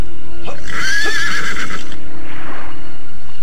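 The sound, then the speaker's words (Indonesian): A horse being ridden neighs loudly in one long, wavering whinny, followed by a shorter, softer cry, all over a dense, noisy background. “Berpeganglah kuat-kuat pada kendali ini. Kita akan segera melarikan kuda ini.”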